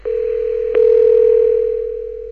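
A steady, single-pitch telephone line tone holds while a call is transferred to a press office. It sounds alone, with a click partway through, and the tone fades slightly toward the end.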